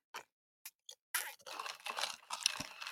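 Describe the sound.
Crunchy chewing of an apple-flavoured snack: three short, separate crunches, then steady, dense crunching and munching, all fairly faint.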